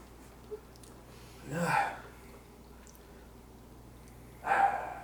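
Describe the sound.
Dog barking, two short, separate barks spaced a few seconds apart over a quiet background.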